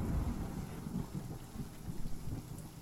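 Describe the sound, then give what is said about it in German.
Thunder rolling as a low, dense rumble that continues without a break through the whole clip, fairly faint, with a rough, noisy texture over it. “Können Sie den Donner ein bisschen leiser machen?”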